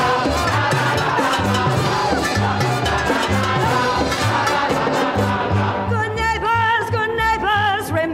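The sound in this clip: Orchestral conga dance number from a Broadway musical, in which a lesson leads to everyone dancing. A driving, steady bass rhythm and brassy full orchestra play throughout, and a group of voices sings more clearly in the final seconds.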